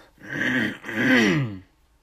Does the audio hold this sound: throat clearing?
yes

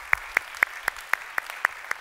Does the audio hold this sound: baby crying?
no

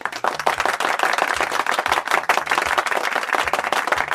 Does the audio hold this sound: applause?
yes

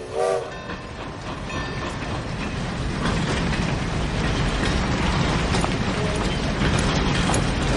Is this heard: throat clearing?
no

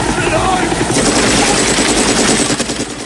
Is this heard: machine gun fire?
yes

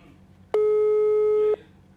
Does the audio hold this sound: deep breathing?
no

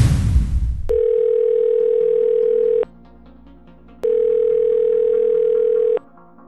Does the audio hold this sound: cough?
no

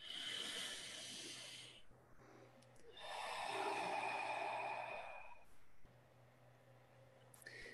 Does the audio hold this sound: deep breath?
yes

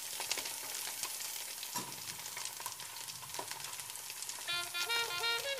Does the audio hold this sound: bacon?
yes

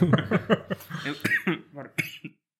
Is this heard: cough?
yes

